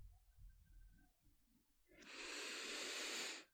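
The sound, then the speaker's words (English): A deep breath drawn in, heard as a faint, airy hiss lasting over a second that follows a stretch of soft low rumble. “Take a deep breath.”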